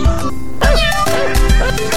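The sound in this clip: A cat meows a few times in short, loud calls that bend up and down in pitch, over a steady continuous background.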